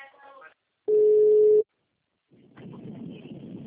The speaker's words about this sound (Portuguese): Tô ligando pra ela.